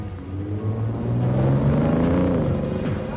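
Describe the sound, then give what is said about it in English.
Two cars drive off together, their engines revving as they pull away, with the engine tone rising during acceleration over a loud, steady rumble. “He sees Dom, Leon, and Vince get into two cars, and an upset Mia watches them drive away.”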